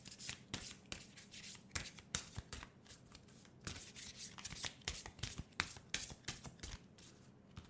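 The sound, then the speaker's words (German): An oracle card deck with gold-edged cards is shuffled and handled, many soft papery slaps and rustles in an irregular stream, faint and with no talk. “ziehe da jetzt eine Karte für uns”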